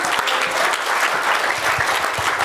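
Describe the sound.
A round of applause from a crowd, a dense, even wash of clapping that holds steady for a couple of seconds with no talk over it.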